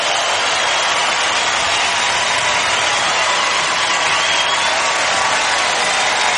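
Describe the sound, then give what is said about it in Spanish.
Loud, continuous crowd applause mixed with cheering at a worship gathering, a dense unbroken roar holding the same level from start to finish. “fuerte aplauso a tu rey.”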